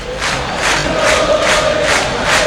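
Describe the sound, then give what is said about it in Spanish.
Boca Juniors fans roar and chant in La Bombonera stadium. A loud, dense mass of voices pulses in a steady rhythmic beat throughout. “Escuchá cómo está la Bombonera, escuchá cómo está el hincha de Boca a esta hora.”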